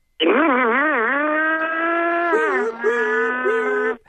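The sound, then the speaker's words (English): A voice imitates a car accelerating in a video game, making a buzzing, wavering engine hum that settles into a steady drone, then breaks into a few short revving bursts near the end. “Now pull out from the corner now and really hit the gas.”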